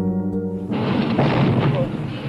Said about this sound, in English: The dynamite recovered from the Greenwich Village house was detonated safely this afternoon in a New York police firing range.